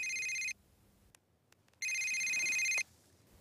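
Telephone ringtone sounding in two electronic bursts separated by a pause, each a steady, high, multi-tone chime, fairly faint, with no talking.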